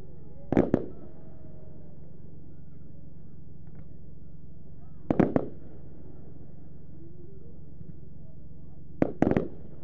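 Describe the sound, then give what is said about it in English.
A 25-shot, 25mm fan cake firework fires three loud bursts, each a quick cluster of sharp cracks, spaced roughly four seconds apart over a low background rumble. “that was a 25-shot, 25mm fan cake bombette. This lasts around 15 seconds and fires 5 rows of 5 shots in a fan shape, as you saw.”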